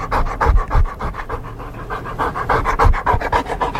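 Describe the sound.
A dog panting in summer heat in Warsaw: quick, rhythmic breathy huffs repeating steadily from start to finish, fairly loud and alone, with no voices.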